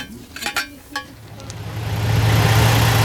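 Bus engine running during a ride: a low, steady engine drone swells and grows louder through the second half, after a few short light knocks near the start.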